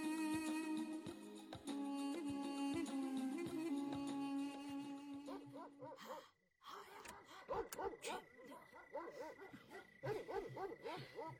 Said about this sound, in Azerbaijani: Bax, bu köpəklər quduzdular, ha?